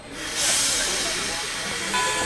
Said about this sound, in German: Beide steigen in einen Zug, der nach Luz in den Pyrenäen fährt.